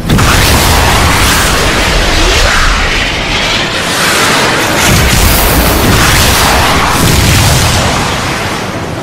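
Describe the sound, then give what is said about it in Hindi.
Three cruise missiles are fired at an enemy position, producing a loud, continuous roaring rush with booming blasts. The noise swells and eases in broad waves without clearly separate launches, then tapers slightly at the end. “तीन cruise missile fire करें। 1, 2, 3 fire.”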